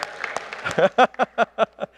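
An audience claps for a baby, the clapping loose at first and then settling into a steady, rhythmic run of loud claps in unison.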